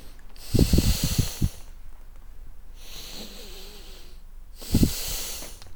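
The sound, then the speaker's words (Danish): A person takes deep, slow, airy breaths during a relaxation exercise with eyes closed. Three long breaths are spaced evenly and heard alone, with no talk. “De lød øh, god dybe, de indåndinger der”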